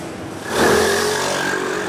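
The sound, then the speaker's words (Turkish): Heavy road traffic rumbles near the Molla Gürani Viaduct in Kavacık, Istanbul, where strengthening works slow drivers. A steady wash of engine noise swells after about half a second and stays loud and even. “okul servislerinde de yola çıkmasıyla trafikte yoğunluk yaşanıyor. Üzerine bir de yol yapım çalışmaları eklenince en kısa mesafeler bile saatleri aşabiliyor.”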